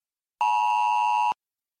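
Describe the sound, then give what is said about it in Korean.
A disaster safety text message alert tone on a phone: one steady, bright, buzzy electronic beep lasting about a second, alone in silence. “재난 안전 문자.”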